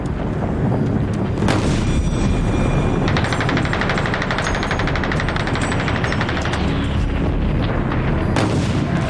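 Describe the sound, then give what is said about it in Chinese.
Artillery shelling and gunfire as a Japanese division attacks a besieged garrison: a dense, unbroken roar of blasts mixed with rapid rattling fire, loud throughout with no pauses. “他们来势汹汹，一整天都在炮击我们，一刻不停。”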